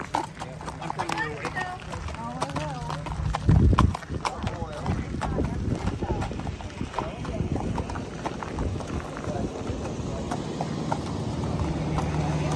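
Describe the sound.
Horse hooves clip-clop steadily as the horse pulls a harness racing cart around a track carrying a bridal party member, with voices talking over the hoofbeats throughout.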